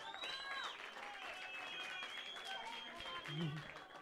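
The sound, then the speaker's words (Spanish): Audience applause at a hip hop event, a faint wash of clapping with voices and shouts mixed in, continuing steadily throughout. “Un aplauso, H Latino.”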